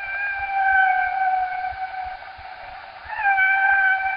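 Whale squeals: drawn-out, high tonal calls with clear harmonic overtones, each held at a nearly steady pitch. A brief dip in loudness splits the calls, and a fresh squeal with a slight wavering onset follows.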